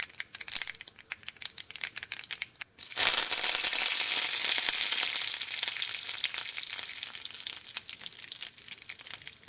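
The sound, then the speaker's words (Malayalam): Mustard seeds hit hot oil in a frying pan, first a light, scattered crackling, then a sudden loud, dense sizzle that keeps hissing steadily to the end. “ഒരു fry pan അടുപ്പത്ത് വയ്ക്കുക. അതിനുശേഷം ഒരു spoon എണ്ണ ഒഴിക്കുക. എണ്ണ ചൂടാകുമ്പോഴേക്കും നമ്മൾ എടുത്ത് വെച്ചിരിക്കുന്ന കടുക് അതിലേക്ക് യോജിപ്പിക്കുക.”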